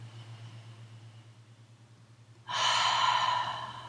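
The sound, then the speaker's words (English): A deep breath is drawn in through the nose during a relaxation exercise. After a quiet stretch over a low steady hum, one sudden, loud, airy inhale starts and holds until the end. “And then take a big breath in.”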